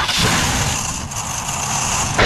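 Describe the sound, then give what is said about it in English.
An old car engine struggles and runs roughly, producing a loud, harsh, noisy rumble that carries on steadily with no clear rhythm or pause. “Nope, that's the sound of your car begging for retirement.”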